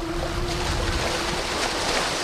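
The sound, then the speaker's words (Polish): Sea waves washing along the coast at Gdynia, a steady, dense rush of surf that holds at an even, fairly strong level throughout without distinct breaks or pauses. “Te fale bardzo dużo mówią już o lokalizacji, w jakiej dzisiaj gościmy.”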